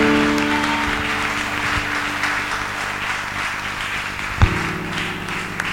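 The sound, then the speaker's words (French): A church audience applauds and cheers, making a dense, steady wash of clapping and crowd noise that holds at an even level throughout, with one sharp louder tap near the end. “Je dis, lève-toi pour acclamer Dieu. Lève-toi, tu vas acclamer Dieu pour sa vie.”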